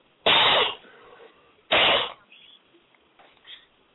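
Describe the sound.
A person coughing: two loud, harsh bursts, each sharp and brief, with faint low noise in the gaps and after.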